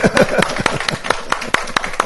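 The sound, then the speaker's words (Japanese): A church audience gives welcoming applause for a newly married couple, a loose, uneven patter of many separate hand claps from a modest group, fairly loud and continuing steadily. “本当に来てくれましたので歓迎の拍手をしたいと”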